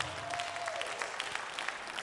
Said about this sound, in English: Come on, clap your hands tonight.